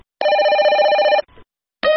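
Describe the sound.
Telephone ringing used as a jingle for a listener call-in segment: a bright, steady electronic ring lasting about a second, a brief rustle, then a second ring starting just as the sound ends.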